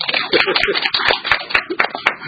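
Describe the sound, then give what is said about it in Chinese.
A group of people claps in celebration after a third-place finish in a race, with about eight sharp, evenly spaced claps in a steady, lively rhythm. “我們真的很開心，我們自己鼓掌獎勵我們自己”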